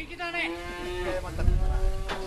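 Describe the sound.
Cattle moo on a farm in a valley near Fukushima, outside the evacuation zone, where a breeder keeps about seventy cows; a long, drawn-out, low harmonic lowing sounds over a soft rumbling background.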